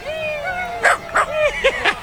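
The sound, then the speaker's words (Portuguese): Small dachshund yips on Times Square, a thin whine leading into a few short, high-pitched barks in quick succession, fairly faint. “Gente de Israel passando e passeando pela Times Square, literalmente com um cachorrinho.”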